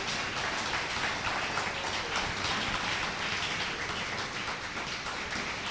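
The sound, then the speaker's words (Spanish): An audience at an evening church service applauds Jesus Christ, producing a steady, hiss-like spatter of many hands clapping at an even level for several seconds, with no voices standing out. “Dale un aplauso a Jesucristo en esta noche.”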